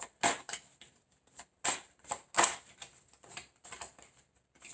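Tarot cards are shuffled and drawn, giving a series of crisp, papery slaps and flutters in an uneven rhythm, with several sharper hits standing out among softer card rustles.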